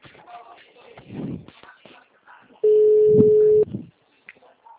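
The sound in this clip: A telephone ringback tone sounds on a line during an outgoing call: one steady, mid-pitched beep held for about a second, following a stretch of muffled talk.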